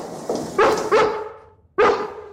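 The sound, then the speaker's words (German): A female dog barks at a prison in Lenzburg, Aargau, giving a few sharp, high-pitched, slightly whiny barks in two short bursts separated by a pause. “Das Bellen von einem Hund, aber genau so tönt's immer wieder im Gefängnis zu Lenzburg im Aargau.”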